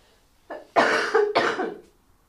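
A short run of harsh, throaty coughs from someone recovering from an illness. There is a small burst first, then two loud, rough bursts close together. No other sound is heard.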